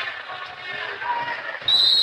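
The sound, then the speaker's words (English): A basketball being dribbled up the court during a girls' game, with soft, low, regular bounces under a steady wash of crowd noise. “She passes it right back to Dieter, who dribbles it up on the right side.”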